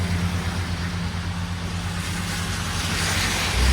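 A car's engine as it is shifted into drive and pulls out, a steady rumbling idle that swells louder near the end.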